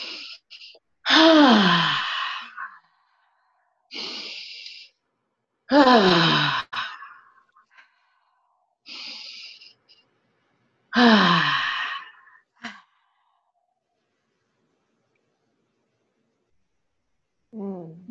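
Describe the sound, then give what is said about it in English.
Deep cleansing breaths taken during a guided relaxation exercise: three loud, voiced sighing exhales, with shorter, quieter intakes of breath between them, and no words spoken. “And then take three big cleansing breaths.”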